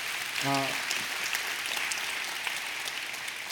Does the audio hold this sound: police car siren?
no